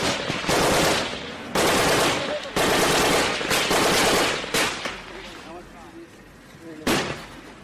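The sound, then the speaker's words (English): Machine gun fire during heavy fighting between Taliban fighters and Afghan government troops. Several long, loud, rattling bursts follow one another closely, then the firing thins into quieter scattered shots with one last sharp burst near the end. “Here's the sound of some of the heavy fighting with government troops.”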